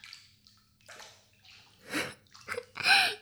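Water sloshing in a bathtub of hot water: a few irregular splashing and swishing bursts, separated by quiet moments, that grow louder toward the end, with no talk.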